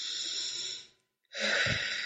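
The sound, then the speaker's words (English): A deep breath taken during a guided exercise: two long, airy breath sounds separated by a brief silence, fairly soft, with no talking. “And take a deep breath.”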